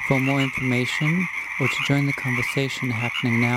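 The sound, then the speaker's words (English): Pacific chorus frogs call in a marsh on Saturna Island, British Columbia, at midnight, giving many rhythmic, rasping croaks repeated steadily while a voice talks over them. “listen for the song of the Pacific chorus frogs”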